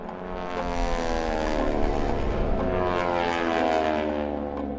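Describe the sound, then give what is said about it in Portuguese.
Military propeller airplanes drone past in flight with a steady, layered engine hum that swells gently and holds, with no voices. “Os aviões dirigem-se para sul.”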